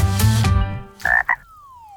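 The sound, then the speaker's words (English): Frog croaking: a burst of low, rough croaks at the start, then two short, higher calls, followed by a thin whistle-like tone that slides steadily downward in pitch. “what does a frog know about money? Not much.”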